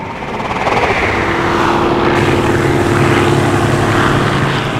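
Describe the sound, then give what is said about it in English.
A propeller airplane flies overhead with a loud, steady engine drone, a broad roar over a low hum that swells slightly and then eases toward the end. “The engineers picture the plane flying overhead.”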